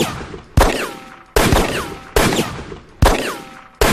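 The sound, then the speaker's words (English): Dual-wielded Glock 19 and MK-23 pistols fire in a video game, producing a series of loud, sharp gunshots at a steady, evenly spaced pace. Each crack trails off into a short decay before the next shot. “15 in your Glock 19 and 12 in your MK-23. Dual-wielding pistols do not track average damage. This tells you ammo, so now if I shoot...”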